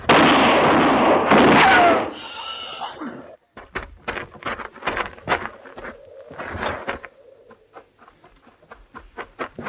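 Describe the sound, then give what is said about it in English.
A loud gunshot in a radio drama bursts out and rings for about two seconds, then drops away to quieter scattered clicks and knocks. “You shot him. Yes, ma'am. He's dead.”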